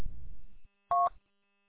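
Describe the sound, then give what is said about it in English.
A single short telephone keypad dialing tone from a VoIP phone line that has broken down and won't connect. The brief two-tone press sounds alone after a low rumble fades out. “Yeah, it's nothing on your end, because I can't dial anybody. Can't connect to anything.”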